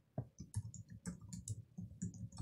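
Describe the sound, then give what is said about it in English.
Soft computer keyboard clicks come as a forward slash is typed into a terminal command, a quick, fairly even run of many light keystrokes with no talking. “So if I check the root file system, for example, I'll type a single forward slash, just like that.”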